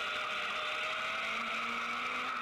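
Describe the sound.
Race car engine held at high revs during a race of about 40 cars, with 8,200 rpm given as the shift point. It is a loud, steady, buzzing drone whose low tone climbs gradually, with no talk.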